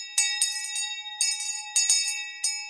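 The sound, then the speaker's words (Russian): A small hand bell held in two fingers rings in bright, high, clear tones, struck repeatedly in several quick clusters, each strike decaying briefly before the next. “Взяв колокольчик двумя пальцами, человек в черном позвонил в него.”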